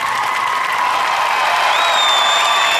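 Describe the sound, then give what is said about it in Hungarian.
Audience applause in a boxing arena: dense, steady clapping that stays loud throughout, with a thin high whistle-like tone running over the top. “Egy nagyon nagy tapsot szeretnénk neki kérni.”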